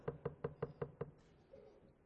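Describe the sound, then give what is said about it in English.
Knocking on a door: six quick, evenly spaced raps in a steady rhythm, fairly faint and alone, then quiet. “Sometime later, some hours later, there was a knock on the door.”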